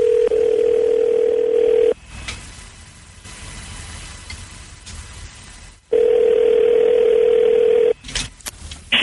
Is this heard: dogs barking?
no

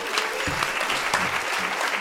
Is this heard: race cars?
no

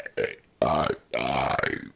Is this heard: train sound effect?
no

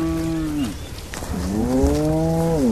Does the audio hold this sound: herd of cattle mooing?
yes

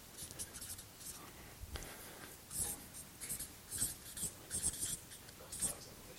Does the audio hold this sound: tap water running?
no

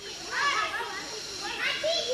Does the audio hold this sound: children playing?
yes

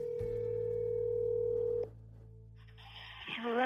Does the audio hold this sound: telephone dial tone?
yes

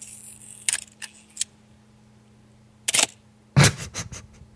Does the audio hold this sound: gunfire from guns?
no

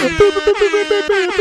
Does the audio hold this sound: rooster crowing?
no

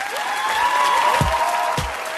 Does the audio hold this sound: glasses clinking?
no

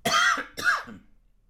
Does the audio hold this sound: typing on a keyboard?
no

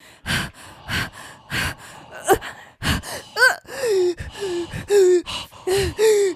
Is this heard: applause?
no

